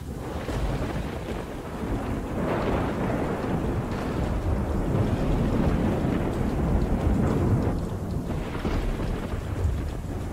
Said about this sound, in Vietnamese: Từ trong đám mây đen, một tia sét đỏ rực phóng xuống giữa bầy quỷ, nổ đánh đùng một cái.